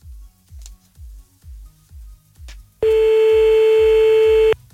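A sustained telephone line tone sounds while a call is being placed. It is steady and loud and lasts under two seconds, arriving after a rhythmic, low, thumping beat that keeps going underneath it.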